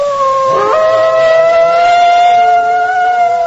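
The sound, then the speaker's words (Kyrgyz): A wolf howls at dusk in the Alay valley. One clear, tonal note dips briefly near the start, then holds long and steady with slight wavering, over a faint low rumble. “Алай жергесине күүгүм талаш жеткенде кашабандын улуганы кадимкидей жаңырып турду.”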